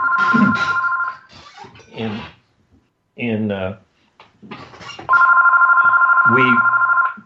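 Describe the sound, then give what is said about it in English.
A telephone rings with a steady electronic double-tone trill, once at the start and again, longer, near the end, with a person talking in between. “pardon my phone ringing here.”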